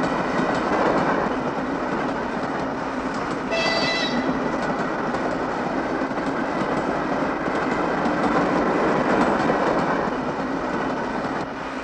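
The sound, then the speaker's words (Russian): A train passing cooling towers at night rumbles loudly and steadily with a rhythmic clickety-clack, and a brief high squeal sounds partway through. “смотрит на проезжающий мимо градирен поезд”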